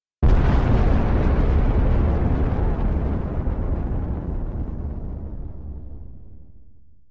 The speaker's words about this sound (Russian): А после — взрыв.